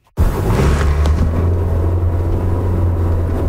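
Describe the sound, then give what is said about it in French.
A car drives along an urban boulevard, heard from inside, with a steady, loud low-pitched hum of engine and road noise that starts abruptly and holds even throughout. “Je circule actuellement sur le boulevard Talbot en direction de La Terrière.”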